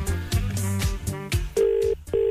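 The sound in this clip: Ringing tone of an outgoing phone call, heard from the caller's end: a steady low electronic burr in two pulses with a short gap between them, following a stretch of rhythmic music.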